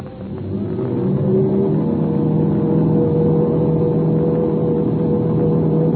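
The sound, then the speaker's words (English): Aircraft engines running up before takeoff: a steady, low droning hum with tonal harmonics that swells over the first second, then holds evenly. “The English ship's running up its motors.”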